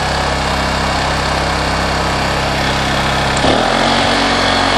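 A gasoline engine idles in eco mode on ethanol-free fuel in cold weather. It gives a loud, steady, buzzing drone whose tone shifts slightly partway through, with no voices.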